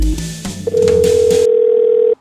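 A telephone ringing tone sounds on a call to a dental office reception: after a brief burst of mixed sound, one steady mid-pitched tone holds loud and unbroken for well over a second, then cuts off.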